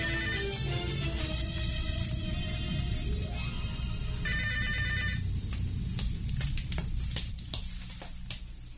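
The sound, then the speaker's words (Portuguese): A telephone rings loudly and continuously, its bright, rattling ring filling several seconds before the sound thins and grows quieter toward the end, with no voices present. “Estava mesmo esperando que você telefonasse.”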